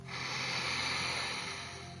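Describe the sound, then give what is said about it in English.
A deep breath drawn in slowly, a soft, airy hiss of inhalation that swells gently and stays steady for about two seconds before easing off, quiet and alone. “Take a deep breath in.”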